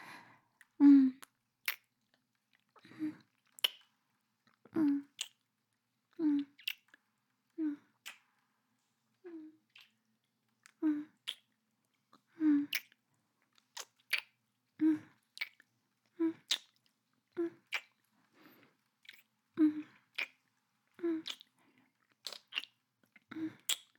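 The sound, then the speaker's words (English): Kissing: many soft, wet lip smacks repeat at a steady, unhurried pace, quiet and close, with short pauses between them. “Can I kiss you? Yeah, I really want to.”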